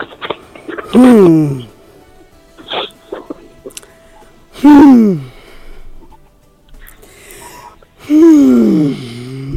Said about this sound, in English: You know why I breathe down like that three times?